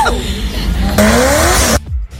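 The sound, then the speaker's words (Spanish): A Mazda RX-7's engine roars loudly, its note climbing in pitch as it revs before cutting off abruptly. “Un Mazda RX-7. Madre mía, qué sonidillo.”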